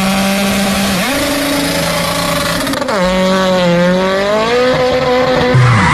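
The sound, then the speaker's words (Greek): A car skids on the road after a tyre blowout, with the rim left on the road surface. Its tyres give a loud, sustained harmonic screech that wavers and slides up and down in pitch for several seconds. “Αμάν, πάει το λάστιχο, πάει και η ζάντα στη μέση του δρόμου.”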